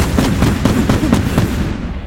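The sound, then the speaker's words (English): Turrets rising from city walls fire shots upward: a rapid string of loud, booming blasts over a dense, continuous rumbling roar. “The turrets start rising up from the walls and pointing over and start firing shots up.”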